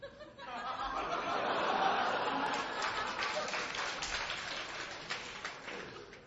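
Faint applause from an audience at a comedy performance swells early and then thins out, with some soft laughter mixed into the clapping.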